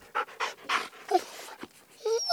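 A pet dog pants in quick, breathy bursts: a few rapid, fairly loud huffs with short gaps between them, and no other sound alongside.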